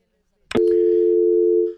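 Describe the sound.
Dial tone after a dropped phone call: a brief click, then a loud, steady, unbroken tone that holds for over a second on its own.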